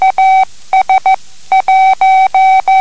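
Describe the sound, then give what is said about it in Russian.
Morse code sending the signal AS, meaning wait: a steady mid-pitched tone keyed into short dots and longer dashes, with clear gaps between letters and no voices. “AS, AS означает то же самое, ждите.”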